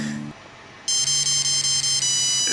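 A mobile phone ringtone plays while the phone vibrates: bright, steady high electronic tones start abruptly and stay loud, with a low buzzing drone running underneath for most of the ring.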